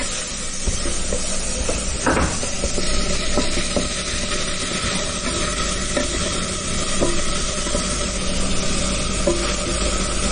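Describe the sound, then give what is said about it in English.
Onions fry in olive oil in a pan, cooking until translucent: a steady, continuous sizzling hiss with occasional scrapes and clinks of stirring, and no voices. “I tend to use sort of olive oil because I just feel that that's much healthier. And okay, so we get those onions in there and just get those slightly sort of translucent.”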